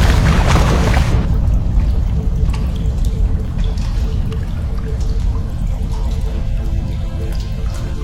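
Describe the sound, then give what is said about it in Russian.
Rushing, churning water floods a train carriage inside a tunnel as it rises quickly after the carriage crashes into the tunnel edge. A loud, dense burst fills the first second, then a steady roar of moving water continues without voices. “Вода доходит до окон. Вагон врезается в край тоннеля. Вода быстро поднимается.”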